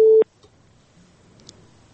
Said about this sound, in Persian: خب تماس از دوست ما قطع شد.